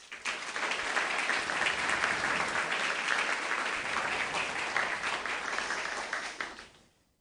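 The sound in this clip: Audience applause welcoming panelists at the Commonwealth Club: dense, steady clapping from many hands that holds level for about six seconds, then tapers off and fades out.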